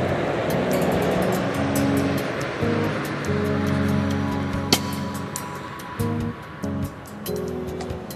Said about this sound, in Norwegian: Vi kjører ut på de danske motorveiene og tar en 15 mil sydover.